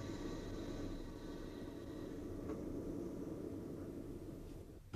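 A train rolling along the rails as it leaves the main line at a Chattanooga station, heard as a steady, dense low rumble with a broad hiss on top. The level stays even, with no clear rail clacks standing out.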